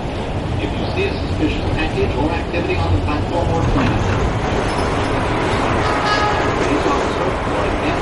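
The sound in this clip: Steady rumble of a moving metro train carriage heard from inside, a continuous dense roar of wheels and running gear that holds an even level throughout, with faint voices blending into the noise.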